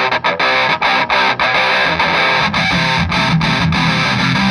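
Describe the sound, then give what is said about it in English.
Heavy fuzz pedal distortion on an electric guitar gives a thick, saturated, buzzing tone. It plays loud and continuous, with only a few brief dips between sustained chords, and no voices. “That thing's heavy, though. That's a heavy-sounding fuzz.”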